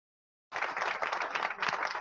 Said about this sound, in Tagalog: All right. Palakpakan for Redell Ferrer.